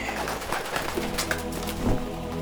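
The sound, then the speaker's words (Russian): Pigeons cooing from inside a sack, a soft, steady murmur of low coos held at an even level throughout. “«Чего у тебя в торбе?» «Голуби, голуби.”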